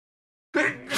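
A single sneeze bursts out after half a second of silence: a short, loud, breathy explosion that lasts about half a second and stands alone, with no talk around it.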